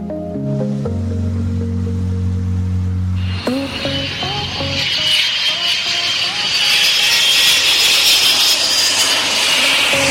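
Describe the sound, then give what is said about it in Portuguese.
A jet airplane takeoff used as a radio jingle effect: a few short tonal musical notes, then a loud roaring engine that swells and stays strong to the end. “Então, aumenta o som, que daqui a pouco a gente já vai começar o nosso Estação Turismo. Venha decolar comigo.”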